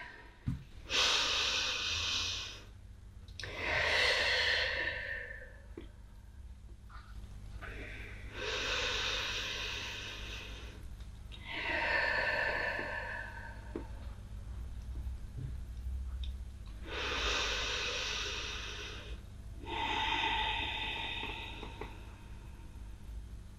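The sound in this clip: Slow, deep breaths during a guided breathing exercise, each a long, loud, breathy rush of air in and out, with several drawn-out breaths in a steady, unhurried rhythm and brief pauses between them.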